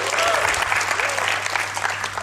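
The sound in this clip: Live audience clapping on cue at an event: continuous, energetic applause with a sharp, crackling texture from start to finish.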